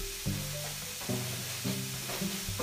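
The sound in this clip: Bacon sizzles as it fries in a pan, a steady crackling hiss that runs throughout with a few recurring low tonal swells.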